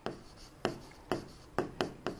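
A pen writes on a board during an English grammar lesson, making several short, scratchy strokes in an uneven rhythm with quiet pauses between them and no talk over them.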